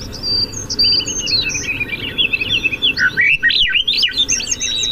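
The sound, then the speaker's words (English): Songbirds chirping in backyard ambience recorded at a doghouse: many quick, high twittering calls and trills overlap continuously above a steady low background hiss. “The ambient sound is coming from the doghouse, but it's meant to refer to the whole space, and it's classic backyard sounds.”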